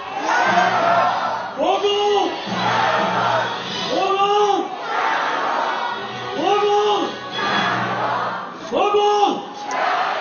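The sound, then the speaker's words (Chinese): A crowd at a Kuomintang overseas campaign rally chants and cheers for Wu Poh-hsiung. Loud unison shouts recur several times in a steady rhythm, with a single voice calling between them. “现在全场在为吴伯雄加油。”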